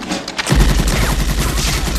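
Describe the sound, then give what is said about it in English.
A Tommy gun fires a burst of bullets into a wall: a heavy boom opens a loud, rapid, continuous rattle of shots with deep low-end weight that holds steady to the end. “The flat-headed man misses the little boy, then turns and grins as he fires a pattern of bullets into a wall.”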